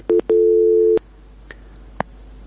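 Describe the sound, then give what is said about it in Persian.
A telephone tone sounds after a call is cut off: a brief beep, then a longer steady tone, followed by two soft clicks in near silence. “بله، فکر کوم له دوی سره مو تماس پرې شو.”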